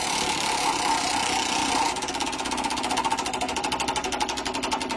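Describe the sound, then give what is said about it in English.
A prize wheel spins in a contest for concert tickets: a brief noisy whir gives way to a rapid, steady run of sharp ratcheting clicks that continues to the end. “We'll spin the wheel one more time.”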